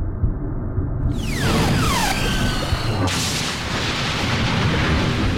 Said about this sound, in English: when she returned to the open ocean, she saw Guardian 1, her stolen submarine, along with Tully and Harlequin, explode in front of her eyes